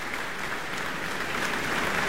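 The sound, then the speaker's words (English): Audience applause fills a Tanglewood concert as the crowd honors the fellows of the Tanglewood Music Center, a dense, steady wash of clapping that holds even throughout. “He's back on stage now applauding for the fellows of the Tanglewood Music Center and bows before the audience once again.”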